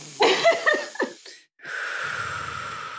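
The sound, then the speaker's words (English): A long, steady deep breath drawn by someone calming down before board exams, following a few short breathy bursts and a brief pause. “All right, okay, I'm gonna take a deep breath.”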